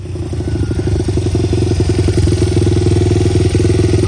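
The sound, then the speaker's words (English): Dirt bike engine running loud and steady, a dense low rumble with a fast, even pulsing beat and slight swells in level throughout, no voices. “This your dirt bike? Been riding it a lot since we've had the virus thing?”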